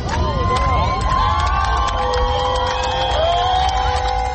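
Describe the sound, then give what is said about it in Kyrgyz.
Crowd cheering and shouting in the central square of Yerevan at a protest rally, a dense, loud roar of many voices that holds steady throughout with overlapping high shouts. “Еревандын борбордук аянтына чогулгандар бул кабарды кыйкырык сүрөн менен кубануу менен кабыл алышты.”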